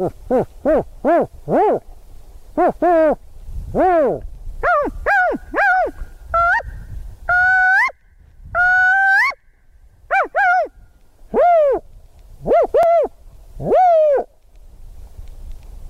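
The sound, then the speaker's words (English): A man imitates spotted owl hoots with his voice, as done when surveying for the owls. He gives a long series of varied hoots and barking, whooping calls in clustered bursts with pauses between, rising and falling in pitch, with no other sounds. “What I like to do when I'm surveying for spotted owls and using my voice is kind of mix them all up and do something to the effect of”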